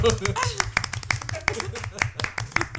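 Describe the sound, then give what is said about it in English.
A group of people clap their hands in a second round, many quick, overlapping claps in an uneven patter, with voices talking beneath them throughout. “We can do another clap. You get two.”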